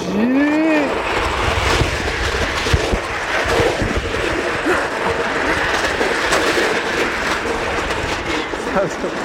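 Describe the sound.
Roller coaster car rolling on its track and engaging the chain lift, a loud continuous clattering rumble that holds steady throughout with rapid rattling mixed in.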